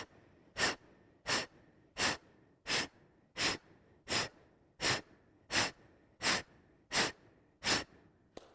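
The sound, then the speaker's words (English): Forceful breathing exercise driven by the abdomen: eleven sharp, breathy exhalations pushed out at a steady, even pace, each a short whooshing puff separated by quiet pauses. “Try to have the maximum movement of the abdomen. Exhale all the way, all of it, all of it.”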